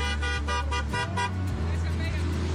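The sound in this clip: Car horns honk as vehicles leave a shopping centre in a flag-waving celebration convoy for graduating seniors. A quick run of repeated toots at the start gives way to a continuous low engine rumble of passing traffic.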